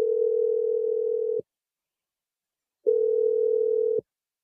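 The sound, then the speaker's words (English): A telephone line tone while a number is being called: two long, steady, low-pitched tones, each lasting over a second, with a clean silent gap between them. “Dial the number right now.”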